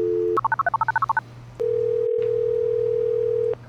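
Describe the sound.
A telephone dial tone gives way to a quick run of about ten keypad beeps as a number is dialed, then a long steady tone lasting about two seconds, with a low hum beneath throughout.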